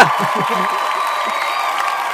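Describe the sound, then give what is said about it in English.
Fake studio audience applause added as an effect: dense, steady clapping and cheering that holds at an even level for the whole clip. “can we add, like, a fake audience? Yeah, I was gonna do that.”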